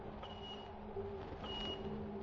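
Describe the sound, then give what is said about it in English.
Two high, steady sonar echo-ranging pings from a hunting ship, each lasting under half a second and about a second apart, sound over a low, continuous machinery rumble. “Echo ranging, sir? He hasn't got us yet. Just poking around.”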